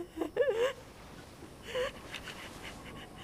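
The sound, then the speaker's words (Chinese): Heavy breathing from a person, with a few sharp gasping breaths carrying a faint voiced, whimper-like tone, followed by a softer breath and then quiet, low-level rasping. “吸气，然后呼出来。”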